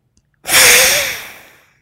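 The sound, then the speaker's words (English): A single exhale through one nostril during an alternate-nostril breathing exercise: a sudden, strong rush of breath that peaks quickly, then tapers away over about a second, with a faint whistling tone inside the airflow. “Inhale side two. Exhale, side one.”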